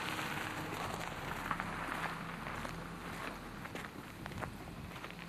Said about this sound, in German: Der Kies unter den Schritten knirscht